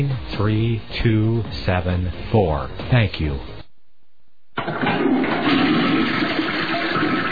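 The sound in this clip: A toilet flushes with a steady, loud rush of water. It follows a man's brief speech and a short silent pause, then continues to the end.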